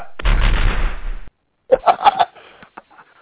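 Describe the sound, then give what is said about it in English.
Firing-squad gunshots as a sound effect: a loud, sustained volley of fire lasting about a second, then a short silence and a few quicker, sharper cracks. “if any public official gets caught promoting religion within public policy, he gets this treatment right here. Ready, aim, fire.”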